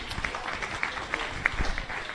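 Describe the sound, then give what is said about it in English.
Audience applause at a chamber of commerce morning gathering: a short stretch of fairly soft, scattered clapping with individual sharp claps popping out of the steady patter. “Big round of applause for them.”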